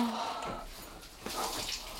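Water runs into a bathtub with a steady, soft hiss and a faint, even splash that holds without break throughout.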